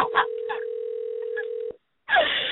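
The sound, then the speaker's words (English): A telephone line tone holds at a steady pitch for under two seconds beneath talking voices. It cuts off abruptly, then a short silence is followed by a burst of noisy line sound. “The phone is ringing right now.”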